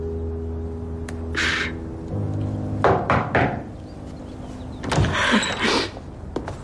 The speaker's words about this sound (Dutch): Plots klopt er iemand aan de deur.